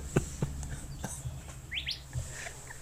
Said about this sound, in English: There's a little bird chirping on.